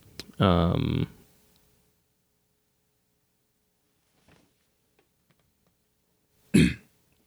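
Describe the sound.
A person clears their throat with one loud, rasping burst near the start. A few faint clicks follow, then a second short throat clear or cough near the end.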